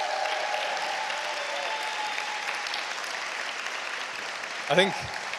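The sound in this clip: An audience applauds to welcome a guest speaker, a church leader. Steady clapping continues throughout, and a voice speaks briefly near the end.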